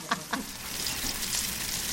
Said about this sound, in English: The sizzle, that sound you hear when it's a sizzle, that's the sound of the water leaving the food.